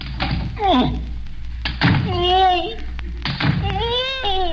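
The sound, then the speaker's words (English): Swords are plunged through a basket during a magic trick, producing a few dull, solid thunks amid people talking. “All I do is plunge these three razor-sharp swords through the basket. Apparently through my assistant.”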